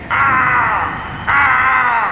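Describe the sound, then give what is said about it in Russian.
Hoarse cry of a raven, two long, harsh, rasping caws, the second starting just after the first fades, loud and alone with no voices. “И вдруг, среди грохота волн и воя ветра, где-то перед носом лодки раздался хриплый крик ворона.”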